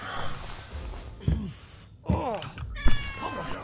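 A cat meowing: a few short, fairly faint mews separated by quiet pauses, with soft rustling between them.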